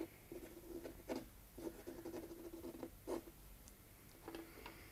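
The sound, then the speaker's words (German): A pen scratches on paper as a letter is written. Faint, short scratching strokes come in an irregular rhythm, separated by brief pauses. “Ich glaub, du schreibst.”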